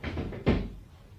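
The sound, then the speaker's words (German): A waiting room door swings shut with a single short, low thud and a brief fading tail, heard alone. “Einen Moment noch, ich will nur das Wartezimmer schließen.”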